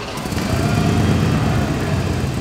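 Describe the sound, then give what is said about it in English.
Motorcycle engines drone loudly as staff drive bikes around a dealership showroom in Fairfax, Virginia, a dense, steady rumble with no clear pauses or pass-bys. “Staff members are driving motorcycles around the showroom, trying to make space for more merchandise.”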